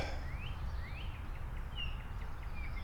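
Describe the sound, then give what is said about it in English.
Faint bird calls near a pond, a few quick rising chirps scattered over steady low background noise. “Okay, there's some birds. There's some birds birding around”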